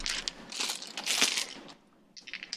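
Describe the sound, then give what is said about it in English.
A die is rolled for a tabletop role-playing campaign, giving a clattering rattle of sharp bursts for under two seconds. After a short pause, a few more quick clicks follow, with no voices. “All right. Die roll.”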